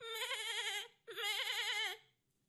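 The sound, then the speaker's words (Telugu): Tethered goats, including a young kid, bleat as they strain at their ropes: two long, wavering, harmonic bleats with a brief gap between them, fairly faint and heard alone. “తాళ్లు గింజుకుంటూ జాలిచూపులు చూస్తూ దీనంగా అనరుస్తున్నాయి. పోలయ్య మేకపిల్ల మరీ అరుస్తోంది.”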